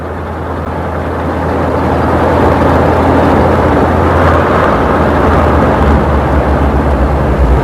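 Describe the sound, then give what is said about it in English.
A car drives off, its engine rumble building over the first seconds into a loud, steady low drone that holds to the end, with no voices. “Madeline drives off, followed by Scotty.”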